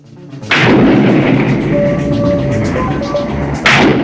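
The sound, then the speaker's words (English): A handgun is fired down an empty road at night: a loud blast opens into sustained heavy rumbling, and another sharp burst comes near the end. “Holding the gun in two hands, she aims down the road back toward Manhattan. She pulls the trigger.”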